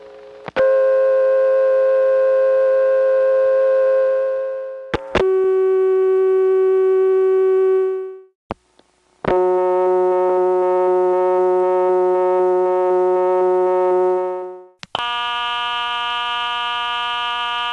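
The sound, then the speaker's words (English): Old telephone dial tones from independent phone companies, generated by machines with moving parts, play one after another. Four steady, loud, buzzy tones of different pitch follow in turn, each held for several seconds, separated by brief clicks and gaps. “Dial tones like those were generated by machines that had moving parts.”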